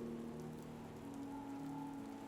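Rain falling on a stormy night, a faint, steady hiss of drops spread evenly throughout with no breaks or thunder, quiet and unbroken.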